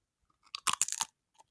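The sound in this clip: A tortilla chip is crunched between the teeth in a quick cluster of sharp, crisp crackles, then one faint final crunch, with no voices.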